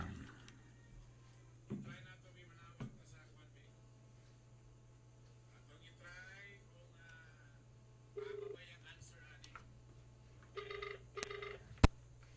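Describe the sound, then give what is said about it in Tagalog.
A telephone rings as a call is placed to a contest winner's number, with several ringing bursts at intervals over a faint steady hum, and people talking between them. “O, yan. Atong tawagan na number.”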